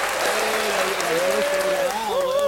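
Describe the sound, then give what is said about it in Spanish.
Audience applause after a band's live performance: dense, steady clapping that holds at one level for the whole stretch, with talk and a tonal voice-like sound running over it. “Aplausos para ustedes”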